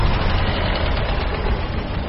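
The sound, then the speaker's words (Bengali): Car engine running steadily beside a rusty iron gate, giving a continuous low, even rumble that holds at one level throughout with no other sounds. “প্রায় আধ ঘন্টা পর গাড়িটা আবার এসে দাঁড়াল সেই জং ধরা লোহার গেটের সামনে।”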